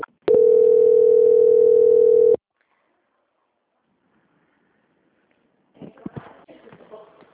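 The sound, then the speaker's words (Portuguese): A steady, loud, mid-pitched electronic tone sounds on a telephone line while a call is being transferred. It holds unbroken for about two seconds, then stops abruptly, leaving a quiet line until brief muffled noise rises near the end. “só mais um minutinho então que eu vou transferir a ligação”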